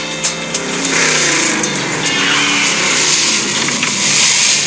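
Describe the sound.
A car driven fast, its engine roaring steadily and loudly from start to finish with no talk over it.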